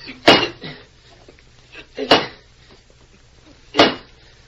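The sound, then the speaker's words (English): A pick striking rocks, with three sharp, clanking blows spaced evenly apart and quiet gaps between them. “the pick won't make an impression on those rocks”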